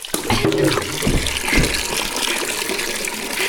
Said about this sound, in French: Comme un rideau d'eau. Un rideau d'eau solide.